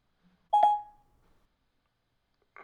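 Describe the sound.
A single telephone keypad dialing tone, one short, clear electronic beep that rings briefly and fades, followed by near silence.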